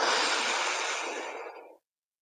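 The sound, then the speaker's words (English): A single deep breath, a steady airy hiss that holds evenly for nearly two seconds before cutting off into silence. “So one more breath. Now.”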